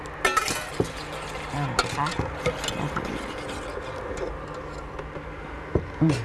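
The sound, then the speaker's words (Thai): After the oil phase is poured into a warm melted mixture, it is stirred in a pot. The stirring makes scraping sounds and scattered light clinks and ticks, with voices talking over it. “ได้ค่ะพอเขาละลายนะคะไม่ติดค่ะอาจารย์ยกลงเลยค่ะแล้วก็จะเทพาร์ทน้ำมันนะคะเทลงไปเลยค่ะอาจารย์คนได้เลยค่ะ”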